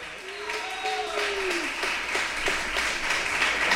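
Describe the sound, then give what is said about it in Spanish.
An audience applauds dancers with a fairly regular, rhythmic clapping that keeps an even pace. A voice sounds briefly near the start, above a steady background. “Aplausos a los bailarines, che.”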